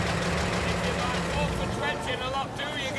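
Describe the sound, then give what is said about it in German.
A taxi engine idles as the car pulls up outside a long white apartment house on 158th Street, a low, steady rumble that stays under voices speaking over it. “In der 158. hielt das Taxi vor einer langen weißen Apartment-Haustorte an.”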